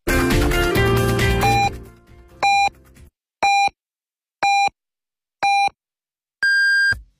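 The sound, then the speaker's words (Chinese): Hourly time-signal pips at 2 p.m. on a Beijing city radio station follow music that fades out: short, evenly spaced mid-pitched beeps about a second apart, ending with a longer, higher-pitched final tone. “北京城市广播1073，请您准确对时。现在是北京时间14点整。”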